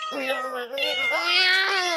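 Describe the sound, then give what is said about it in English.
A single long, loud meow from an unneutered male cat that has sired litters, drawn out for about two seconds with a wavering, rising-and-falling pitch. “As you can hear, he's quite a handful. As a matter of fact, he sired several litters of cats or kittens”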